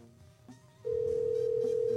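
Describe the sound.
Ringing on an outgoing telephone call to someone in Cloverdale, California: after a faint, murky stretch, a single steady mid-pitched tone starts abruptly and holds unbroken, fairly loud, to the end.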